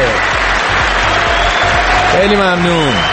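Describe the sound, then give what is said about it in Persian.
Steady clapping for someone, loud and continuous from start to finish, with a voice speaking over it near the end. “آفرین کف مرتب بزن براش.”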